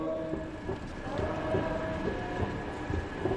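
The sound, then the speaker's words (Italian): Faint rail noise at Rome's main railway station, the largest in Italy, where trains arrive and depart: a low, steady rumble with light scattered clicks and clatter running throughout. “Termini, arrivi e partenze. Viaggio nella stazione più grande d'Italia di Valerio Maggio.”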